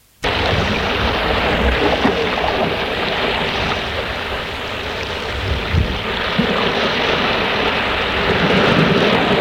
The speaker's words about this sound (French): Nous sommes en Bretagne, dans un petit village au bord de la mer.